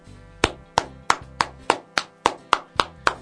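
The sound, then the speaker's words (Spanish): A single person claps alone, ten sharp, evenly spaced hand claps in a steady rhythm at a moderate volume. Each crisp slap decays quickly before the next. “Te aplaudo, pero no comparto. Es un aplauso.”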